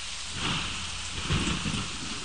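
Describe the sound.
Rain and thunder in a video game: a steady hiss of heavy rain over a low, rolling rumble of thunder that swells slightly twice, with no voices.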